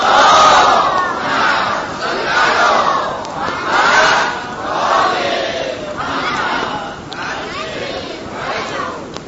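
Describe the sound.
A large crowd at a religious gathering recites the salawat aloud in unison, a loud, full wash of many voices chanting in repeated phrases that surge and ebb in several waves.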